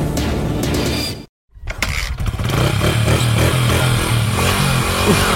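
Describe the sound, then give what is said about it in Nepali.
A badly broken-down motorcycle engine sounds rough, cuts out to a brief silence, then catches and runs loud and steady with a throbbing, uneven beat. “धेरै बिग्रियो यो motorcycle, कता लैजाने होला।”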